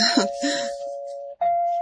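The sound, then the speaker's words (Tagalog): A doorbell rings with two sustained electronic chime tones, the second following a brief gap; voices are heard briefly at the start. “May nag-doorbell man dong.”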